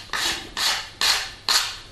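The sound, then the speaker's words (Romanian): Chalk scraping across a blackboard as the writing is crossed out, in four rasping strokes, evenly spaced and of similar loudness, over a low background hum. “Acum ia creta și pur și simplu taie tot ce a scris.”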